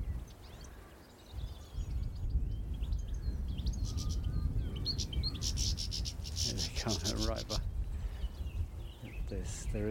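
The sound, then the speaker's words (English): Song thrush singing beside a lane in a Welsh valley in early spring: bursts of high, repeated bright phrases rise above a steady low rumble. “tinkling song thrush up ahead.”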